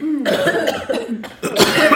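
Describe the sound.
Coughing from someone caught in too much smoke: a few harsh, rasping bursts in quick succession, loud and close, with short gaps between the fits.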